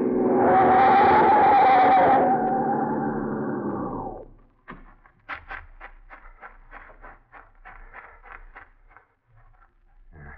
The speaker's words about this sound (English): He gripped the wheel tighter. His foot went down on the accelerator. Then, with a split second to go, the man on the road jumped.